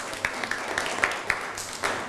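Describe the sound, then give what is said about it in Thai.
Students in a classroom clap for their classmates, a steady series of sharp, evenly spaced claps at a brisk pace, fairly faint against a quiet background. “เก่งมากปรบมือให้เพื่อนหน่อยครับ”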